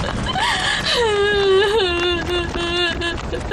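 A person crying and wailing, with drawn-out sobbing cries whose wavering pitch starts high and slides lower, loud and continuous over a steady background noise.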